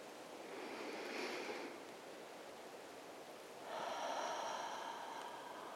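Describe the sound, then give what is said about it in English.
A person taking a deep breath with eyes closed: two long, airy breath sounds, the first rising then easing, the second after a pause, both faint, with no talk. “Now, eyes closed, and take a deep breath. We'll do it together.”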